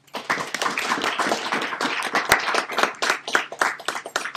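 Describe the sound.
Audience applause welcoming a speaker to a university lecture on environmental literature; brisk, dense clapping from many hands, steady from start to finish.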